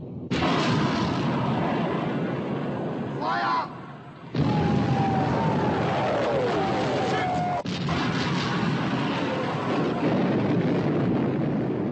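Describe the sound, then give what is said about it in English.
Heavy gunfire in a battle: loud, sustained roaring blasts of shooting that cut in abruptly a few times and carry on almost without a break. “Open fire. Fire! Open fire. Shoot!”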